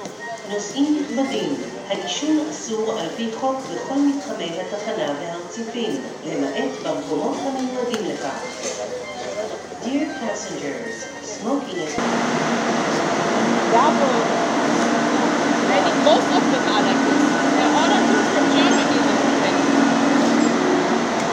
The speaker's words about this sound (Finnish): Tässä vähän tunnelmaa tältä juna-asemalta, koska junallahan me menemme lentokentälle.